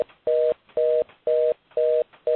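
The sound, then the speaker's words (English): A telephone buzzes on an open line in a regular series of electronic tone pulses, each about a quarter-second long, at an even half-second rhythm. Five beeps sound in a row, the last cut short, with no talk. “There's somebody on the phone. I'm going to ask them to please, I guess they don't know that they've left the line open with the phone buzzing.”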